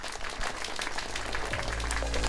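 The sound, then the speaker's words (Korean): An audience at a live event gives a big round of applause. Dense, even clapping continues at moderate volume over a low, sustained hum. “우리 다시 한번 큰 박수 부탁드립니다.”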